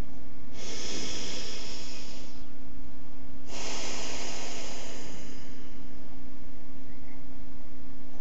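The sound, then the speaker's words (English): Two long, noisy breaths, drawn in and pushed out audibly through the throat during a guided breathing exercise. Each is a loud, airy hiss lasting nearly two seconds, separated by a pause, over a steady low hum. “And while you make that noise again, notice where you can first feel the air as it comes in, and then notice where you can last feel the air as your breath goes out.”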